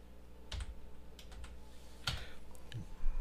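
Someone types on a computer keyboard, producing a sparse scattering of faint, sharp key clicks at irregular intervals over a low background hum, with no talk.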